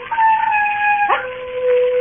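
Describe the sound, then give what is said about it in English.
Wild dogs on a moor bay and howl in a sustained, tonal cry that holds steady, then drops abruptly to a lower pitch and carries on. “There are wild dogs on the moor. Sometimes they bay and howl.”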